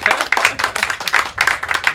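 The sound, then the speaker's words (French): A girls' team claps for itself, many sharp hand claps in quick, uneven bursts with short gaps, loud and close together. “Yes, les filles, en tout cas, vous pouvez vous applaudir parce que vous êtes les futurs champions de demain.”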